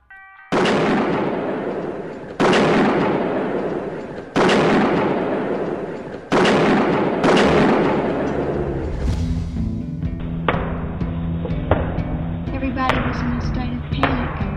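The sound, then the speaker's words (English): Heavy gunfire as police return fire in a chaotic battle: a few loud, booming shots, each with a long decaying tail, spaced about two seconds apart, then a denser rumbling stretch with a droning tonal background. “It was just chaos. It's like a battle scene. There are two different kinds of shots. Apparently, police are returning the fire now.”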